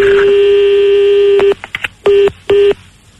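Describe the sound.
Telephone keypad tones sound as a number is redialed: a long steady tone, then a quick cluster of short beeps and two more distinct tones, followed by silence.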